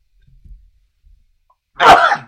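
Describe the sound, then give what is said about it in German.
A single loud, sharp sneeze bursts out near the end after a stretch of near silence, with only a few faint low thumps before it. “So, jetzt aber noch niesen müssen.”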